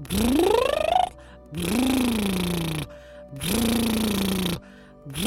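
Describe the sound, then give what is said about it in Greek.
Long, voiced, buzzing exhales during a face yoga exercise for fuller lips. Three vibrating breaths of over a second each are separated by short pauses, the first sliding upward in pitch, and a fourth begins at the end. “ξέρω ότι η δική μου εκπνοή είναι πολύ μεγάλη, μην τρομάζετε, μπορεί να είναι μικρότερη, δηλαδή μπορούμε να έχουμε αυτό.”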